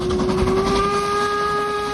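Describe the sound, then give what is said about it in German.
A steam narrow-gauge train whistle sounds a steady, sustained, loud tone with layered pitches over a low rumble as the train passes hikers in the Harz mountains. “Ihr wandert und die Harzer Schmalspurbahn fährt an euch vorbei.”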